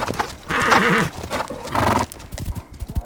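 The horse Silver in a Lone Ranger radio drama whinnies twice, loud and wavering, the first neigh longer. A scatter of hoof clops follows.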